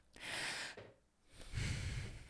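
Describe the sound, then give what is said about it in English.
A slow, deep human breath: two long, airy rushes of air, the second fuller, lower and a little louder than the first. “Just take a deep breath. Let's do it with them.”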